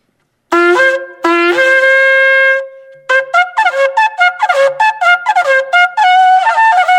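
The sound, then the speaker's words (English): A kudu horn is blown in loud brassy blasts: two long held tones at first, then a quick series of short stuttering toots that end in a sustained note. “So we chose a kudu, mainly because he has a kudu horn.”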